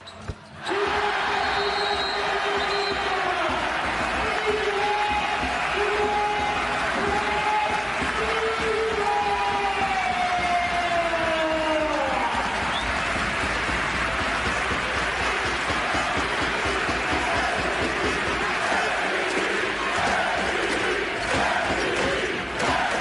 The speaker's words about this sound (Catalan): L'argentí marxava sota els crits d'MVP, d'MVP.